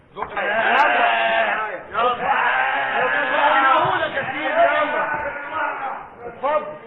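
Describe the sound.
Sheep bleating for the Eid al-Adha sacrifice, a loud run of long, wavering calls that follow one another almost without pause, with a few short breaks between them.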